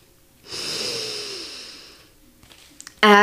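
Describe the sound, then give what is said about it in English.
A single deep breath drawn in during a grounding exercise with hand tapping: a breathy hiss of about a second and a half that slowly tapers off, then a short quiet gap before a voice begins at the very end. “And you're just gonna take a deep breath in.”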